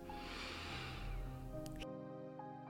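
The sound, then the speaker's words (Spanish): A slow inhalation through the nose during a guided meditation: a steady airy breath lasting under two seconds that then stops, over soft sustained music. “Inhala por la nariz”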